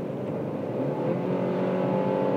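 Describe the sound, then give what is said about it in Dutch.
A car engine at full throttle drones loudly and steadily for the whole stretch, a dense continuous roar with no talk over it. “En als je vol gas geeft, ik ga het nu even doen.”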